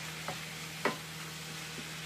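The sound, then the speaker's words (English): Minced meat browning in a pan on an induction stove, a faint steady sizzle with a couple of soft stirring clicks over a low electrical hum. “So, we're browning the mince here.”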